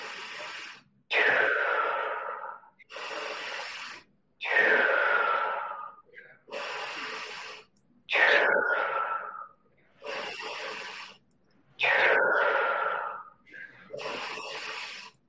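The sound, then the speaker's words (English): Deep, forceful breathing in a Wim Hof style breath exercise: many big inhales and exhales in a steady, regular rhythm, each a long airy rush separated by short pauses. “Big inhale right here.”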